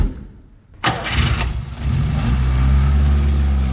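A car engine cranks and catches after a short quiet stretch, then settles into a steady, low running rumble that continues to the end.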